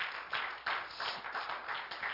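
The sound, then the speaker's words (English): A church audience gives a hand clap of praise, a lively run of clapping with rhythmic surges that keeps going throughout. “Would you give the Lord a hand clap of praise?”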